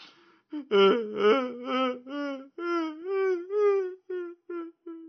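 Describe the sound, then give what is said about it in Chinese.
A voice imitates an old monk wailing and sobbing, a string of wavering, tearful cries, loud and broken into short gasping bursts that grow shorter and choppier toward the end. “这老和尚啊，还哭起没完来了。一边哭一边流着鼻涕”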